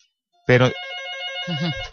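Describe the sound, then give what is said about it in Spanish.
Telephone ringing for an incoming call: a short, bright electronic ring burst followed by a steady sustained tone that holds at a fairly even level to the end. “Creo que ya tenemos la llamada de Jessica”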